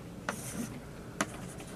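Hand drawing a schematic of two masses marked as open and closed circles, two brief scratchy strokes separated by a soft rubbing pass, faint and with no talking.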